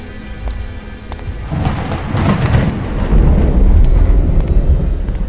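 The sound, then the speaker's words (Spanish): Low, muffled thunder rumbles through a storm over the narrow old streets of Paris, a continuous deep roll that swells gradually and grows loudest toward the end, with no voices. “Los relámpagos brillaban en el cielo y el ruido sordo de los truenos retumbaba en las estrechas callejuelas.”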